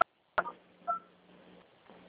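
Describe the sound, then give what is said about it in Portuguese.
Telephone tones during a call transfer: a few short electronic tone bursts, one a steady two-pitch beep, sound quietly over a faint steady line hum. “eu peço que a senhora aguarde em linha, que eu vou transferir o contato para o controle de qualidade”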